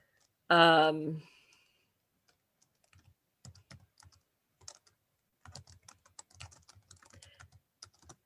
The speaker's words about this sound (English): So she just typed in vampire nightclubs in the world into.